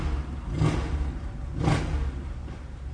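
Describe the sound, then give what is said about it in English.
Engine noise from a passing motorcycle, a three-wheeled trike, rises and fades in two throaty surges, the second stronger, over a steady low rumble. “Wait a minute. Some motorcycle idiot.”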